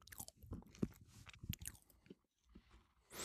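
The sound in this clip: Crunchy chewing of a shortbread biscuit being tasted: several irregular bites and crunches with soft mouth noises between them, followed by a sharper, louder burst at the end.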